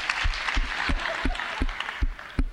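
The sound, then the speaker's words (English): A church audience clapping together in thanks during a service, with steady, evenly spaced claps keeping a brisk beat over a soft wash of background noise. “And everybody said together, come on, let's clap and thank God.”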